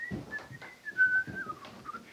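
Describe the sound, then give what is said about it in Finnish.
Soft, quiet whistling by a man pacing back and forth in a room, a thin, wavering tune held in long notes that dip in pitch toward the end, with faint low sounds underneath. “Pisti sitten kätensä taskuihin ja alkoi astua edestakaisin huoneessa hymyillen ja hiljaa vihellellen.”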